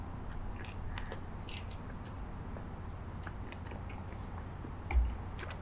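Biting and chewing on hot sausages baked in dough, some wrapped in meat: soft, moist mastication noise runs throughout, with a few crisp crunchy clicks standing out, and no talk.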